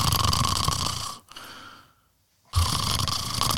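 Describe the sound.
A person imitates snoring: two rough, loud, breathy snore-like bursts with a near-silent pause between them.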